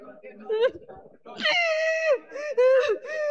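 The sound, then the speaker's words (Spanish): A person screams and wails during a church exorcism at a Pentecostal service, letting out several loud, drawn-out, high-pitched cries that waver and break between short gasping pauses. “sale gritando, oyente la radio, no se asuste”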